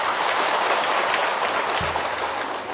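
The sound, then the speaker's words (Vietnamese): Heavy rain pours down steadily around a meeting hall, a dense, unbroken hiss that stays at an even level for the whole stretch, with no voices. “Hôm nay có an lạc không? Bị mưa dồn dập an lạc không?”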